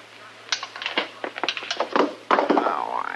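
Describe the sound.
Guns dropped at gunpoint: a quick run of hard, uneven thunks and clatters, followed by a voice.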